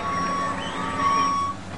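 Reversing beeps from construction equipment sound as a couple of high, steady electronic tones over a low engine rumble.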